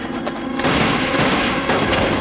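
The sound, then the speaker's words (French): Rapid gunfire from a show: dense, overlapping bursts of loud cracking shots that form a continuous barrage. “Ils sont en train de tirer au travers parce que c'est rendu un hologramme.”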